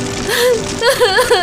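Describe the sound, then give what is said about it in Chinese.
A person cries in a tearful, quavering voice, the pitch wavering and breaking into a few short, shaky sobbing bursts. “还哭，别哭了。”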